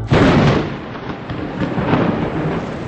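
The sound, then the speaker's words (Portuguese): A clap of thunder during a storm over a winter pasture: a loud, broad rumbling crash that hits abruptly and rolls on steadily for the whole span, with no voices. “um dia na invernada, deu uma trovoada”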